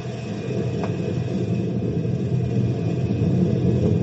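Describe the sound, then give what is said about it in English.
Machinery thrown into gear to raise a gate gives a steady, low mechanical rumble that runs evenly and continuously throughout, with no voices. “throw it in gear and raise the gate.”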